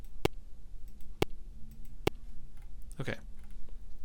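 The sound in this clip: Three sharp, isolated clicks, each a single period of a recorded sung vocal tone, land about a second apart. After them, a voice briefly speaks.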